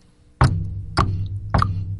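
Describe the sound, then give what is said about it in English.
Three hollow, evenly spaced knocks on the door of a small, dilapidated house. Each knock is sharp and loud with a short ring-out, heard alone with no voices. “He knocked on the door.”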